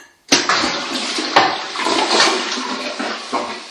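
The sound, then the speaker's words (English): A toilet with its lid open being flushed: a sudden, loud rush of water starts the flush, then turbulent swirling and gurgling continue at a fairly steady strength to the end, with a few surges along the way. “And in front, there's the toilet, which is open. I'm gonna flash it so you can hear what it sounds like.”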